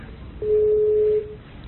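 A telephone call tone on a phone-in line sounds as a single steady, mid-pitched beep lasting under a second over faint background hiss.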